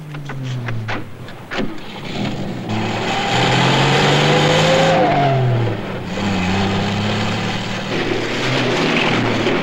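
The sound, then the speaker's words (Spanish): A car engine revs hard as the car drives off in a chase: a loud, continuous roar whose pitch climbs in repeated surges, like gears winding up under acceleration. “Suben a un automóvil. Ella se sienta en el lado del conductor y persiguen a los Barrow.”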